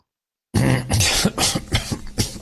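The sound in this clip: A coughing, choking fit during a conversation. After silence, a rough, harsh burst of coughing breaks out, followed by several short, spluttering coughs in quick succession.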